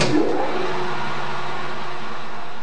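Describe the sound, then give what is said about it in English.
Lathe motor starting up in a high school shop, with an aluminum rod secured in the machine: a loud, even mechanical whir layered with broad hissing noise, holding steady throughout. “Davis is securing an aluminum rod to a part of a lathe machine in the high school shop. The teenager is interested in learning more about the huge machine, which turns metal so it can be carved and shaped. Davis starts up the motor,”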